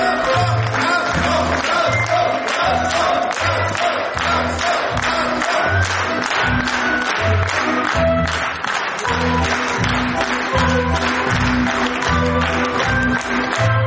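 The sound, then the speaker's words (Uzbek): Sustained, loud applause from a theatre audience at the end of a play as the director takes the stage, dense and unbroken for the whole stretch, with a steady low rhythmic pulse underneath. “Sahnaga chiqqan rejissyor Jo'rabek Ro'zmetov yulduzlar va olqishlar nishoniga aylandi.”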